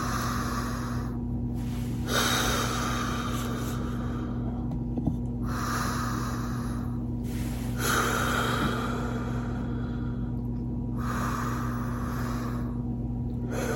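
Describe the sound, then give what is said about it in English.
Slow, deep breaths taken to settle in, heard as about four long, airy inhale-and-exhale cycles at an unhurried, even pace over a low constant hum. “we'll just take kind of really easy, couple, three deep breaths here just to center us a little bit and get set up.”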